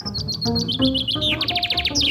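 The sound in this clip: A chaffinch sings a rapid series of high, sharp chirped notes that speed up into a quicker run and end with a brief falling flourish. A low hum sits underneath, and no one is talking.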